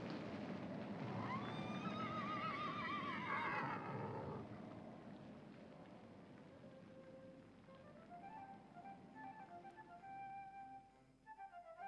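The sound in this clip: Horses neighing: one long, loud, wavering whinny, then quieter harmonic calls and snorts over a steady background.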